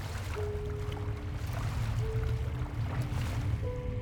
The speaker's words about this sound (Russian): Лодка плывет сквозь густой туман.